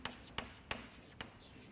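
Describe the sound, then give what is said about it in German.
Faint writing on a board as a definition of a sequent rule is written out in a lecture: four brief, scratchy strokes spaced unevenly across a quiet background. “Die Definition hatten wir letztes Mal, glaube ich, schon an der Tafel. Die schreibe ich hier nochmal hin.”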